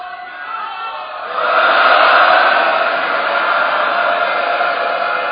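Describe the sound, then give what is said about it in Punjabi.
An audience shouts a Sikh jaikara in honour of Bhai Mani Singh: a loud collective roar of many voices surges up after a quieter opening, then holds as a sustained, broad crowd shout. “ਭਾਈ ਮਨੀ ਸਿੰਘ ਜੀ ਦੀ ਅਕੀਦਤ ਨੂੰ, ਇਬਾਦਤ ਨੂੰ ਅਤੇ ਸ਼ਹਾਦਤ ਨੂੰ ਸਨਮਾਨ ਦਿੰਦਿਆਂ ਹੋਇਆਂ ਇੱਕ ਵੱਡਾ ਜੈਕਾਰਾ ਸੰਗਤ ਵਿੱਚੋਂ ਬੁਲਾਓ।”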